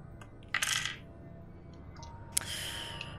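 Dice rattle across a surface for a perception check in a tabletop role-playing game. Two separate bursts of clattering come through, the second sharper at its start, over a steady low background hum.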